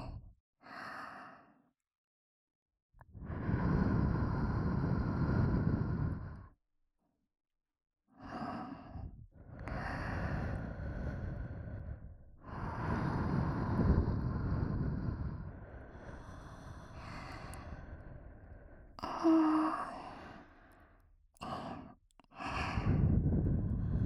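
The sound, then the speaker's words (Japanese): Soft ASMR blowing into the ears: several long, breathy whooshes of air, some lasting several seconds, separated by pauses of near silence, close and gentle. “まずはお耳フーフーしちゃいますね。いいですか？始めちゃいますよ。”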